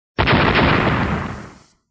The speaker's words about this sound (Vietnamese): Một trận âm thanh bạo liệt nổ ra